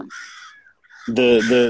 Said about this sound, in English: Oh my God, this crow is going crazy. Crows the river, nevermore. He's right over my shoulder.